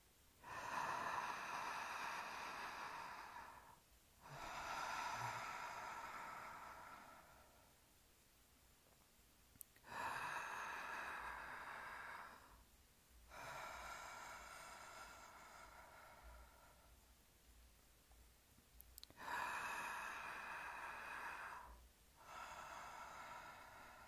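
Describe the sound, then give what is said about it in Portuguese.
Deep breaths through an open mouth during a guided heart meditation with a palm on the chest: three slow, airy inhale-exhale pairs, each breath several seconds long and separated by brief pauses. “Coloque a palma da mão sobre o peito e vamos respirar de boca aberta profundamente, três vezes.”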